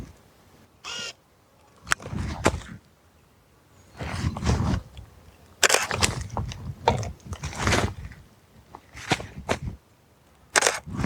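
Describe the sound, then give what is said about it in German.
A camera taking a photo produces a scattered series of short, sharp mechanical clicks and rustling bursts. They come irregularly over several seconds with quiet gaps between them, and no one talks. “Ich werde das einmal kurz fotografieren.”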